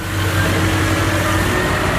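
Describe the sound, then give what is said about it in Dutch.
Engine of a truck at a supermarket distribution centre in Tilburg, a loud, steady, continuous drone with no distinct events. “Dat is er een vrachtwagen op weg naar een supermarkt in Nederland of België om te bevoorraden.”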